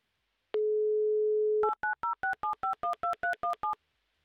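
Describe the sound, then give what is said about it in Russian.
A telephone call is dialed: a steady dial tone lasts about a second, then eleven quick, evenly spaced touch-tone beeps follow in a regular rhythm, with no voices. “Давай звонить. Очень хочется надеяться. Итак, звоним нашему слушателю Алексею.”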